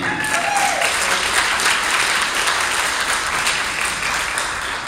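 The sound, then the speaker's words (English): An audience applauding a speaker after an introduction, with dense, steady clapping that stays loud and even throughout. “So without any further ado, let's hear it for Dr. Cardi.”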